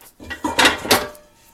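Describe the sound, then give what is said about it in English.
Clatter of an extra mixing bowl being taken out in a kitchen, a few short knocks and scrapes of dishware at moderate loudness that quickly fade to quiet. “I got out everything but the extra mixing bowl. That's okay. Let's get out the bowl.”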